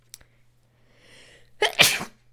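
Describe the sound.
A single loud, breathy sneeze bursts out after a faint intake of breath, sharp and explosive over a steady low hum, with no talking around it.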